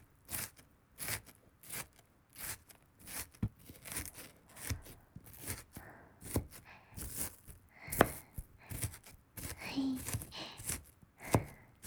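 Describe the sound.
Kitchen knife chopping vegetables on a board: many crisp, sharp knocks in an uneven rhythm, some in quick runs and some spaced apart, moderately quiet and heard alone.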